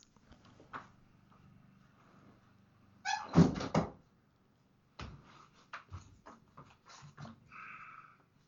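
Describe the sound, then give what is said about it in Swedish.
A window is shut with a short burst of clunks and rattling, followed a moment later by several lighter clicks and taps, all fairly quiet. “Du vänta, vänta man, jag ska bara stänga ett fönster, grannen klipper gräs där”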